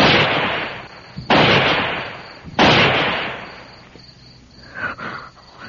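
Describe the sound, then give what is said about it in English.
Three gunshots are fired into the air as a signal, one after the other at even intervals. Each is a loud, sharp crack that trails off in a long fading rumble. “fire 3 shots in the air, one after the other.”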